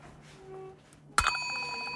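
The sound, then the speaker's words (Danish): A small broken bell with a spoon attached is struck once, giving a sudden bright metallic clang whose steady ringing tones hold to the end after a quiet start. “I har en lille klokke, men du griner, den fungerer måske ikke helt, som den skal. Nej, det er en ødelagt klokke med en ske på”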